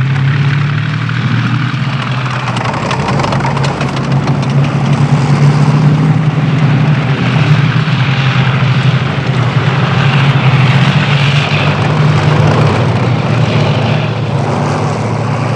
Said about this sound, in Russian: По дороге едут танки.